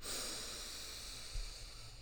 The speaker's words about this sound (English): I want you to take a nice deep breath in